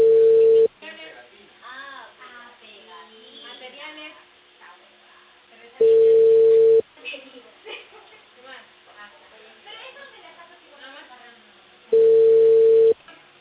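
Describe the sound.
A telephone busy signal heard as three separate steady tones, each about a second long, with people talking on the line in the gaps between them.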